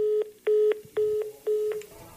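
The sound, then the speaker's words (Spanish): Four short, steady telephone beeps of equal length in an even rhythm, the signal of a call dropping, sounding alone with no voices. “Se le cayó la llamada, hijita de Dios.”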